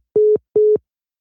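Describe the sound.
Busy tone after a phone call is cut off: two steady, mid-pitched beeps of equal length with a short gap between them, alone with no talk.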